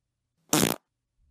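A single short fart from a woman, a buzzy, low, reedy tone lasting well under half a second, loud against otherwise near silence.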